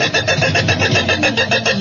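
A car engine struggles to start after being rained on, like an ethanol-fuelled car, with rapid, regular cranking pulses that are loud and slightly uneven.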